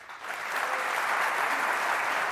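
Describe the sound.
Audience applause welcomes Eric Schmidt at the Computer History Museum, a dense, even clapping that builds in the first moment and then holds steady and full throughout.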